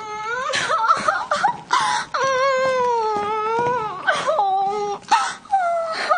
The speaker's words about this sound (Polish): dziecko, czego ty znowu płaczesz? Nie mogę patrzeć, kiedy jesteś nieszczęśliwa.